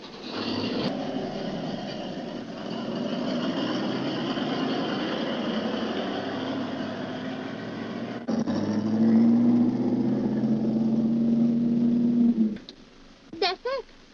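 A car engine with carburetor trouble drones steadily, then a sustained hum joins it before the sound cuts off abruptly near the end, followed by a few brief knocks.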